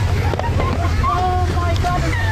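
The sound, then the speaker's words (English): Canal water flooding a Dublin bus, a steady, loud churning rush of water with a low, continuous roar, while people talk over it. “Dramatic scenes of a Dublin bus being flooded by canal water.”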